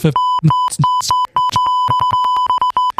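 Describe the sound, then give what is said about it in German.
Electronic beep tone, steady and high-pitched, sustained through about three seconds with many brief dropouts, and fainter muffled sounds mixed in underneath. “Hör auf zu piepen, sag's ruhig.”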